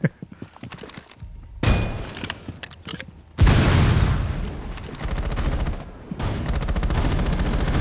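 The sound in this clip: Video game gunfire erupts in a loud, sharp onset after a quieter start, then continues as sustained rapid automatic shooting that holds steady for several seconds.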